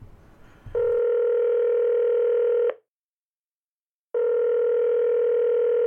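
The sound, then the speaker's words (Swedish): A telephone line tone sounds while a call is placed. After a short burst of noise, a steady electronic tone holds for about two seconds, breaks off into silence, then sounds again and runs to the end. “Stig Karlsson ifrån Tingsryd, ska se om vi kan ringa upp honom här.”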